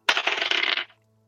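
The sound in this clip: Dice are rolled for a persuasion check in a tabletop role-playing game, a quick clattering rattle of many small clicks lasting under a second before silence.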